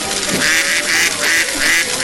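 A duck quacking in an amusement arcade on a beachfront, a few repeated nasal quacks over a dense, constant background din.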